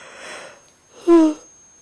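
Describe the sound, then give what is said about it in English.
A person yawning: a soft breathy intake followed by a brief voiced, slightly falling groan, fairly quiet with no speech. “I'm yawning.”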